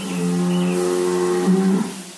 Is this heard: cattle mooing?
yes